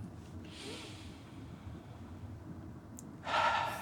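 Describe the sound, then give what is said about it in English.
A deep breath taken on request: a soft breathy hiss early on, then a louder rushing breath near the end, over a low steady rumble. “can you take a deep breath just right now? Just take a deep breath.”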